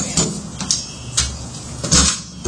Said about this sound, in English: The store is still open, unlocked, but there's no evidence of entry at this point. Well, we can lock it.